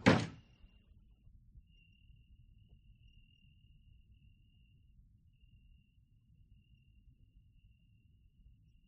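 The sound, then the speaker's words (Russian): A door slams shut once at the very start with a single loud, sharp bang. Near-silence follows, with only a faint steady high whine and low rumble. “Граф захлопывает дверь за Камышевым.”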